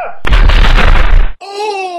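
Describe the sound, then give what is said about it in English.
Firing squad gunfire volley: a single loud, harsh burst of noise lasting about a second, cut off sharply, then followed by a tonal vocal sound. “Let's find out who's going to be shot. Right. Ready! Aim! Fire!”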